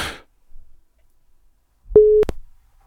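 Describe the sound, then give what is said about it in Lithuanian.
Telephone ringback tone heard while placing a call, a single steady mid-pitched beep lasting about a third of a second, clean and moderately loud after a brief burst of noise and near silence. “Nu va, telefonas jau pypsi.”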